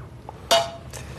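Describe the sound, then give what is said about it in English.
Radish noodles go into a bowl with a single short clink and a brief ringing tone. A softer rustle follows a moment later. “Just a little bit of radish, put it in the middle. Okay. Put radish in a bowl.”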